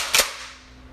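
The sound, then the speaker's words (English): A single shotgun blast sound effect: one sharp, loud bang with a quick bright crack that dies away within a fraction of a second, heard alone over faint background noise. “You know, no, but we do have a shotgun now. You think that sounds like a shotgun?”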